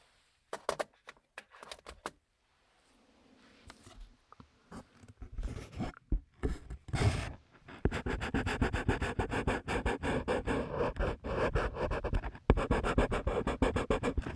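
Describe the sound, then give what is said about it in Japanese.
Colored pencils scratching as someone draws. A few sparse taps and soft strokes give way to a dense, continuous run of rapid, scratchy strokes through the second half, with no talk. “色鉛筆って色合いも優しいし、音も優しくていいですよね。”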